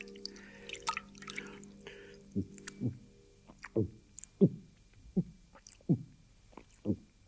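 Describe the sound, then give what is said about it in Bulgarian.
Babbling brook water gives a series of low, hollow bubbling plops in an uneven rhythm, fairly faint throughout. “Само да намеря сладка вода да се напия. Бу-бу-бу-бу-бу-бу-бу-бу. Чухте ручейче.”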